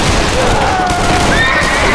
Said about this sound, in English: jerked his horse to a stop in the center of town.